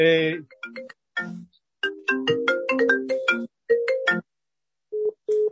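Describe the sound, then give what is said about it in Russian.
A mobile phone plays a melodic electronic ringtone in repeated phrases of short bright tones, with brief gaps. It ends with two short beeps after a pause. “Я надеюсь, он больше не будет звонить. Просто кошмар. Я не понимаю, что с этим делать, если сейчас телефон”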